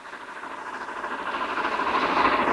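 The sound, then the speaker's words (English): A train passes along a snowy railway track. Its broad, rushing rumble and rhythmic clatter grow steadily louder across the few seconds, and no voices are heard. “Yuri blinks and looks up. Yuri dives to one side just as the train passes.”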